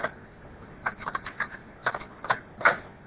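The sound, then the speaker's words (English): A cassette tape is flipped over to the other side in its player, giving a quiet run of small plastic clicks and rattles. Several sharp clicks are separated by short gaps. “Oh, time to flip the tape.”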